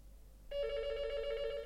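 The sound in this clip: A telephone rings with an incoming call: after a brief quiet moment, one bright, buzzing electronic trill starts and holds steadily to the end.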